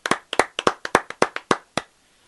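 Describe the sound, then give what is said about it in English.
A small group of people clapping along a call, many sharp separate hand claps in an uneven rhythm that stop abruptly, leaving a short silence at the end. “Yeah, we were clapping for you.”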